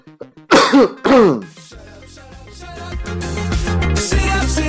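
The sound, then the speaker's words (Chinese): A person gives two loud, harsh bursts of coughing and throat clearing. Music then fades in and grows steadily louder. “我好像咳完了才把音乐打开，不好意思。”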